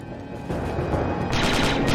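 Gunfire in an older video game, with rapid bursts of shots that step up in loudness twice. The dense rattle grows heavier and more continuous toward the end.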